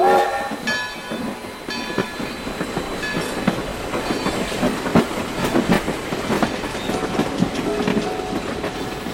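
A train departs with a steady rumble and a dense run of rattling clacks from the wheels and cars, holding an even loudness throughout with no voices.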